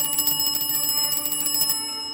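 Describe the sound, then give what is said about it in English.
A clock strikes one o'clock in a room full of smartly dressed businessmen at a telegraph corporation in San Francisco. It rings with bright, sustained bell-like tones and shimmering overtones, then cuts off shortly before the end. “when the clock strikes 1 o'clock, a hush of anticipation settles across the room”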